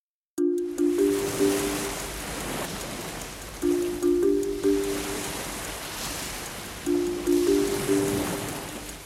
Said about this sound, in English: It kind of sounds like the ocean. That is the sound of the ocean.